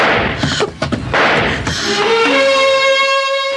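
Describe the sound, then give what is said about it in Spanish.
A revolver is fired almost point-blank in darkness, giving a few loud, sharp bangs in quick succession. A sustained tone follows. “Sacha dispara casi a quemarropa. En la oscuridad, no sabe si hirió a Calimán o no.”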